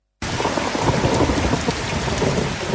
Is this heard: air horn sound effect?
no